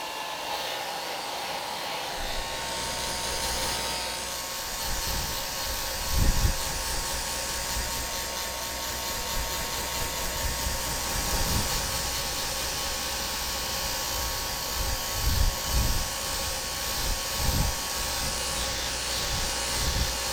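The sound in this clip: A hair dryer blows on someone's hair: a loud, steady whirring rush of air that runs for about twenty seconds, with a few brief low thumps and bursts in the airflow along the way. No one talks.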